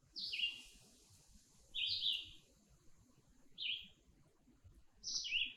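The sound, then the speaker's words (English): A red-eyed vireo singing, four short, high, slurred phrases separated by pauses of over a second, each crisp and clear against a faint, quiet background. “Let's take a listen to that red-eyed vireo again.”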